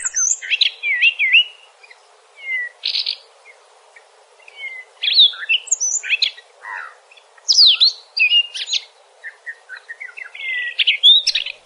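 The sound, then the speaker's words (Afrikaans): Cape robin-chat song, a bird with an orange-red breast and white eyebrows: many varied, rich whistled and warbling phrases in repeated bursts with short gaps between them. No voices are heard. “Hy het so oranje rooi borsie en sy het wit wenkbraue. En sy Afrikaanse naam kom natuurlik van sy roep af, want dit klink of hy sê Jan Frederik.”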